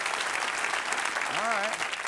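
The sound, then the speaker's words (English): Audience applause, a steady, fairly faint wash of many hands clapping, with a brief voice rising over it near the end. “By applause, how many of you think I'm doing a good job?”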